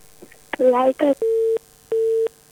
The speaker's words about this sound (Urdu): کال disconnect, Multan لفظ سنائی دیا، باقی سمجھ نہیں آیا